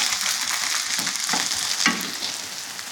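Garlic, vegetables and tofu fry in a pan with a steady, bright sizzle and scattered crackles, loud and constant throughout with no talking.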